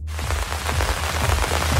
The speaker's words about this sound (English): Well, that's the sound of relief for many as the first meaningful showers for more than 6 weeks crossed our area yesterday and overnight.